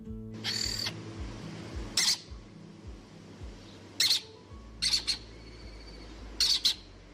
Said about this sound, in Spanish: Ellos son los protagonistas a partir de este momento. Es el cernícalo primilla, un ave rapaz de pequeño tamaño, cuya población está aumentando en Guadalajara, concretamente en Quer.